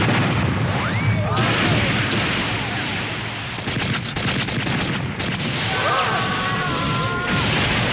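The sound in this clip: Cannon fire in the 1986 animated film Castle in the Sky makes a dense, continuous roar of blasts, with a rapid volley of crackling shots in the middle.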